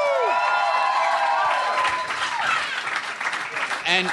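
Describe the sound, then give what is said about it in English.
A live audience at a comedy panel show applauds and cheers to welcome a comedian guest, a loud, steady wash of clapping that lasts the whole time, with a voice briefly audible at the start and near the end. “Our third guest today, you know him from Triple J and from Reality Check. Please give it up and welcome Tom Ballard.”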